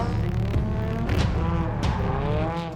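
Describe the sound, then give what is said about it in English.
A drift car roars on a qualifying run, accelerating hard. Its engine pitch repeatedly climbs and wavers over hissy tire noise, loud and continuous throughout. “She's on the throttle very early. So already looking great going through zone two. Really deep into three.”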